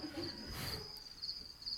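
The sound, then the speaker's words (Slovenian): Crickets chirping in a steady, high, thin trill that runs quietly and continuously throughout, over soft low background noise. “Čričke pa sluši, no?”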